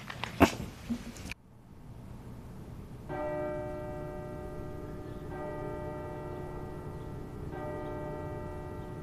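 Tower clock bell two blocks away striking the hour, with three resonant strikes about two seconds apart. Each strike rings on in a sustained, humming tone over steady background noise, after a short noisy burst at the start.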